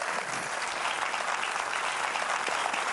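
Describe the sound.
Audience applause welcoming a speaker at a church gathering: dense, steady clapping that holds at an even level for the full three seconds, with no voices over it.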